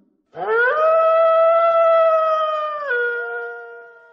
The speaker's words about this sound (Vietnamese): Con chó nhà mình tự dưng sủa vang trời, làm ngắt quãng lời kể của lão Hóa